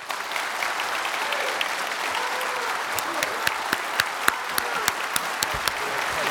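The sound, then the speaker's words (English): Audience applause welcoming a speaker to the stage at a public forum: a dense, even wash of clapping in which louder, sharper individual claps stand out more often in the second half. “Ladies and gentlemen, please join me in welcoming America's 26th Secretary of Defense, General James Mattis.”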